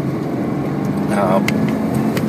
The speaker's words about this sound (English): Oh, police motorcycle.